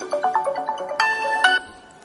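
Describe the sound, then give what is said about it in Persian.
A mobile phone ringtone sounds for an incoming call: a short melodic run of bright electronic notes, then a sustained chord-like tone, clear and moderately loud, with no speech. “اوپس، یکی به من زنگ زد. اجازه است من اینو جواب بدم چون از راه دوره”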